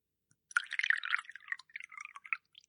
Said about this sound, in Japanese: 先生、私にもお酒を注いでくださる？